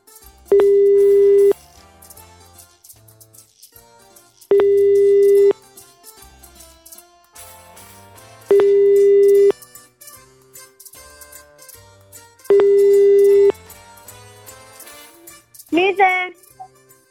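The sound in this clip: Telephone line tones play after a number is dialed: four steady mid-pitched beeps, each about a second long, repeat at even intervals over quiet background music, followed by a brief different sound at the end.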